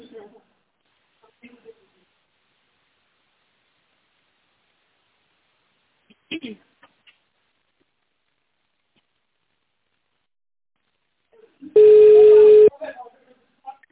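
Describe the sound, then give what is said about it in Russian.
A single telephone keypad tone sounds once near the end, a steady beep just under a second long, as an extension is dialed in tone mode on an office phone menu. Before it there is near silence with a few faint clicks. “наберите его в тональном режиме”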